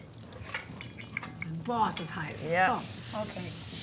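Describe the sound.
Butter sizzling in a hot pan: a faint, steady hiss with stirring and a few light utensil clinks, while voices talk over it.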